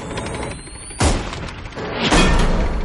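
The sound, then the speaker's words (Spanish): Gunshots strike the metal platform of a bridge crane crossing a dry canyon, with two sharp, loud impacts over a constant rumbling background. “Los matones se acercan disparando.”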